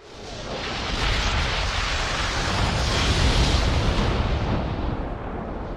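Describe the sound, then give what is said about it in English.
A power node exploding right next to someone: a dense roaring blast that swells within the first second and stays loud and rumbling for nearly six seconds. “Someone just made one of the power nodes explode right next to them.”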